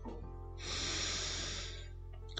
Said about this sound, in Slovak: A skúsime sa spolu zhlboka nadýchnuť a zhlboka vydýchnuť.